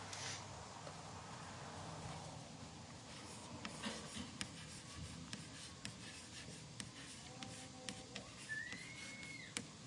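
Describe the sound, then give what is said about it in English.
Writing strokes, faint continuous scratching with a few sharper ticks scattered through, heard alone without talk. “I'm going to go ahead and write characteristics.”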